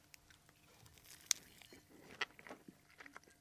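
Biting and chewing a crisp millefeuille pastry: faint, scattered crunches and crackles with one sharper bite and a few lighter ones, followed by soft, irregular chewing, quiet and without talk.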